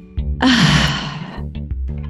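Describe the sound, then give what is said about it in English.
A single deep breath is drawn in, a loud airy rush lasting about a second that then tapers off, with faint voiced sounds just before and after. “We end with taking a deep breath together. So letting it out. Are you down? Yes, I am. Okay. Inhale. Let it out.”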